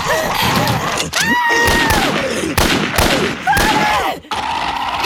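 A few sharp rifle shots burst through a dense, chaotic din, with shrill wailing tones rising and falling between the blasts.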